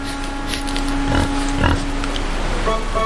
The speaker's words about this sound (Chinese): 野猪最初也是十分担心。这两只野猪正在吃饭，